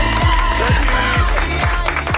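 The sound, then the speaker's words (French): A studio audience applauds and cheers a contestant being welcomed onto a game show. Clapping and crowd noise run throughout over a regular, low, thumping musical beat. “Applaudissements pour Clément.”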